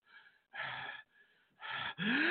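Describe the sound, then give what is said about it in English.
Deep breathing: a few loud, airy bursts of breath alternate with fainter ones, in and out in an uneven rhythm, with no talk over them. “You got to take the deep breath to do all that.”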